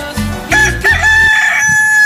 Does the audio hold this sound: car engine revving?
no